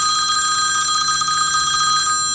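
A telephone rings with a continuous, loud electronic trill, its bright warbling tone holding steady throughout with no voices.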